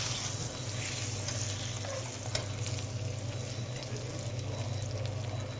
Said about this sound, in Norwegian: Vi legger det i panna. Når du veit at fisken har en perfekt brunfarve, en gyllen nøttefarve på sida, så tar du og snur den.